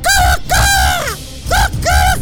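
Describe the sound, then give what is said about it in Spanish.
A voice imitates a rooster crowing as a wake-up call: loud, strained, harmonic cries broken into several segments with short gaps between them. “sonido de gallo para despertarme”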